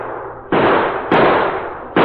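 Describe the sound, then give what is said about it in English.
Gunshot sound effects from a radio western, as outlaws fire at riders fleeing on horseback. Three loud, harsh bursts come at uneven intervals, each ending in a brief noisy tail, with no voices. “Hold your fire! Hold your fire! No use shooting anymore.”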